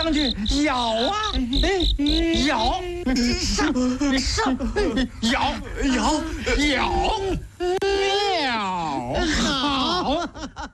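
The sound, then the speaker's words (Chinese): Crickets chirp in a steady, high-pitched trill that runs beneath continuous talk from start to finish. “蟋蟀古代又叫蹴鞠，或者叫夜鸣虫，其实就是咱们民间说的那个蛐蛐啊。”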